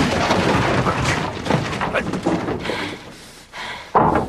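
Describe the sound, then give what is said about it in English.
Gunshots fired through a car's back windshield ring out as a few loud, sharp bangs and booms at uneven intervals, separated by stretches of rumbling noise. “He fires two guns through the back windshield.”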